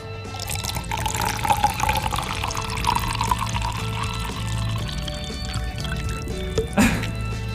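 Liquid poured from a bottle in a steady, splashing stream that runs through almost the whole clip at an even level.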